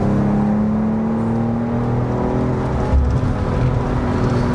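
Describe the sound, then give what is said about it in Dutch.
A BMW car accelerates out of a bend, its engine giving a loud, steady, continuous drone with a strong low tone that holds throughout, with no voices. “zo'n bocht uit accelereren. Nou, dan ga je op het gas, min 4. En dan komt hij.”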